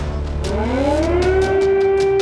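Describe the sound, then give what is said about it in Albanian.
Air raid sirens sound over a capital city, a loud wailing tone that climbs steadily in pitch during the first part and then holds a sustained high note, with no voices. “La capitale si sveglia al suono delle sirene antiere”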